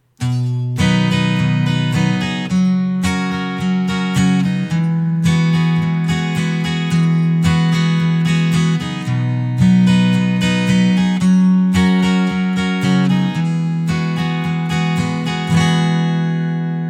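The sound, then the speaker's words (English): Acoustic guitar strumming the opening measures of a verse, moving from a G chord to a D chord in a steady down-up pattern, with bright repeated strums and clear chord changes every couple of seconds, played alone without voices. “And this brings us to verse 1 for our acoustic guitars. Verse 1 is 16 measures long, and the first 8 measures sound like this.”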